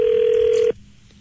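A single steady telephone ringing tone sounds as a call is dialed, a clear mid-pitched hum lasting under a second before cutting off abruptly to a quiet line.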